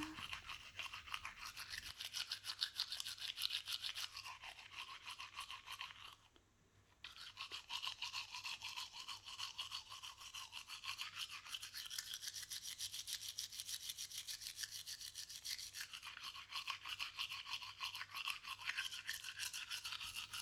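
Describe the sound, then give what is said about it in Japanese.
A toothbrush scrubs teeth, working from the back teeth toward the front teeth. The brushing is loud, rapid and scratchy and runs continuously, with one brief pause early on. “奥の方からだんだんと前歯に向かってシャカシャカシャカシャカ。”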